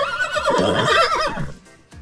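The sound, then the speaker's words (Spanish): A horse neighs in a loud, shaky whinny with a strong, wavering tone that lasts over a second before cutting off into near silence. “Mi pregunta es por qué siempre te ponen un caballo.”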